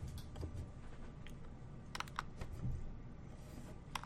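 Computer clicks and taps, a few faint, sharp clicks scattered over a low, quiet background hum.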